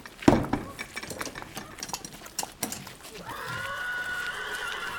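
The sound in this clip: A horse whinnies, a white horse being groomed in a yard ahead of a show-jumping competition. A loud, sharp whinny comes early, followed by scattered knocks and clatter and then a sustained, steady tonal sound.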